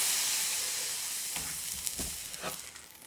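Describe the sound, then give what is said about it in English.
A ladle of stock added to risotto simmering in a pan gives a steady sizzling hiss. A few soft splashes and clicks from stirring come in the second half. “And I'm going to put another ladle of stock in.”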